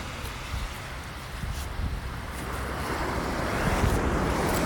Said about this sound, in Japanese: あーマジすっごいこんなとこまで今波がここまで来てびっくり